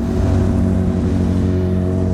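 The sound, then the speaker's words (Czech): Car traffic slows and merges into two lanes in front of a historic main railway station building, heard as a loud, steady engine rumble with a low drone and no distinct passing vehicles or voices. “Před historickou budovou hlavního nádraží zpomalují auta a pomocí zipování se plynule řadí do dvou pruhů.”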